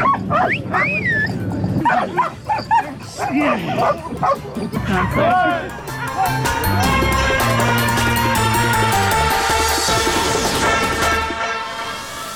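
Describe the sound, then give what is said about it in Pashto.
Mine-detection dogs at a UN training centre in Kabul give sharp barks, high yips and whimpers in quick irregular bursts, then a dense, steady wash of sound takes over. “د ملګرو ملتو په یوه مرکز کې په کابل کې 200 سپي د ماینونو د پلټنې لپاره روزل کیږي. دې مرکز ته مو هم ورولو.”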